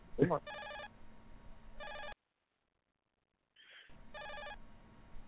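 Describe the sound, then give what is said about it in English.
A phone-like ringing distress signal sounds as short bursts of an electronic trill, repeating with a silent gap between them, fairly faint and steady in pitch. “That sounds like a distress signal.”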